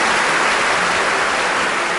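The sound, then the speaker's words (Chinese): Audience applause at a Chinese stage show, a dense, even hiss of many hands clapping at once, loud and unbroken. “我们把掌声送给董子墨、花花老师。”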